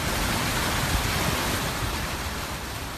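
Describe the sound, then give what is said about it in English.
Floodwater rushing over a flooded highway near Cleveland, Texas, during heavy rain from the remnants of Tropical Depression Imelda, a dense, steady roar of water with no distinct breaks. “That sound of a flooding highway near Cleveland, Texas, about 50 miles outside of Houston.”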